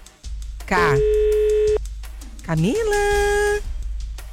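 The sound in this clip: A telephone tone follows a caller hanging up, with two long, flat, steady tones, each starting just after a brief voiced sound.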